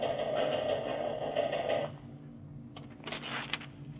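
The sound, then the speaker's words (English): A teletype machine in the FBI's Butte, Montana office taps out a message from Washington headquarters: a steady mechanical whirring hum, a brief lull, then a short cluster of rapid clacking strikes. “Agent in Charge Kearney is standing over the teletype machine as it finishes tapping off a message from Washington headquarters.”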